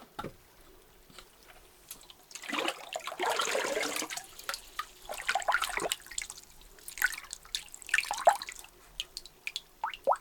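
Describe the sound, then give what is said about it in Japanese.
Hot water rinses hair during a hair wash, with a soft rushing flow that swells and fades, followed by scattered drips and small splashes, all fairly quiet. “ではお湯ですすいでまいります。”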